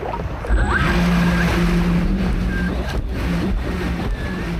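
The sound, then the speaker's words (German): A remote-controlled Dolphin 3 rescue drone, launched from knee-deep water and steered by joystick from the beach, drives through surf, its motor hum blending into a continuous loud wash of waves and water. “Das Gerät startet automatisch, dann steuert er es mit einer Art Joystick vom Strand aus auf seinen Kollegen zu.”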